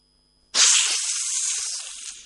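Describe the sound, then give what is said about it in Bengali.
A fearsome black snake hisses as it comes out of a snake charmer's basket: one sharp, breathy hiss starts abruptly and holds steady for nearly two seconds, easing off slightly at the end, alone with no voices. “এইবার ঝাপি থেকে বের হবে সাপ, ভয়ঙ্কর কালনাগ।”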